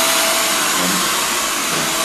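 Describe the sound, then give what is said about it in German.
A hair dryer blows hair after a haircut, giving a steady, loud airy whoosh with a constant motor hum that runs unbroken for the whole stretch, with no talking over it. “Was machst du denn da? Ich brauche den Föhn.”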